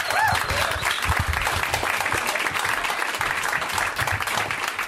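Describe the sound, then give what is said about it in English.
An audience claps in steady, sustained applause, a dense wash of many hands that holds at an even level for about five seconds. “Guys, give it up for Sean. Let's hear it for Sean.”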